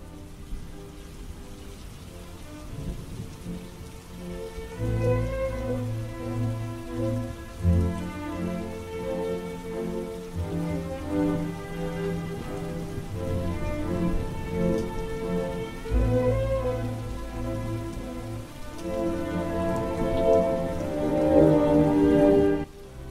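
Steady rain pours over a cemetery in a continuous, dense patter that swells slightly in places, with sustained low tonal sounds running beneath it.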